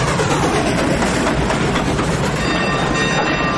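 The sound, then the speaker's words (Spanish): A steam locomotive train moves along the rails, producing a dense, continuous rumble with rhythmic clickety-clack clatter. The sound stays loud and steady throughout, with no voices. “La locomotora se pone en marcha y comienza a expulsar humo por su chimenea. Al atardecer, el tren avanza bajo un naranja cielo.”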